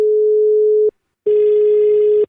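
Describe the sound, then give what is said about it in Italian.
Steady low telephone tone after a call's line drops, holding one unchanging pitch, breaking off briefly, then returning with a rougher buzzy texture layered over it until the end. “qui deve essere caduta la linea”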